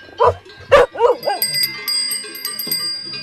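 A farm herding dog, about eight years old, that drives the cattle barks a few sharp times within the first second or so. High, bright ringing bell tones then carry on steadily afterward.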